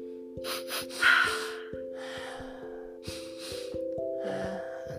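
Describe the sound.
Quick nasal inhales: a double sniff drawn in through the nose, then further breathy intakes spaced apart, over soft, steady background music.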